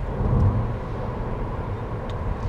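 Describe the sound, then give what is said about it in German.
A car engine runs quietly while driving through an empty countryside area. It makes a steady, low rumbling drone at an even level, slightly louder near the start, with no voices. “Das Auto läuft ruhig in der menschenleeren Gegend.”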